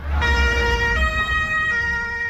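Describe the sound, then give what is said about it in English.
Emergency vehicle sirens wail as services rush to a park in Berlin after a vehicle drove into a crowd. Steady high tones shift down in pitch in steps over a low engine rumble. “Sirens wail as emergency services rush to Berlin's Tiergarten Park.”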